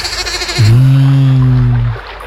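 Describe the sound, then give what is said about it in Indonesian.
A fat-tailed sheep gives a single long, loud bleat with a low, wavering, nasal pitch. It holds for over a second before breaking off. “Wah. Kambing kibas rupanya. Wedhus gembel.”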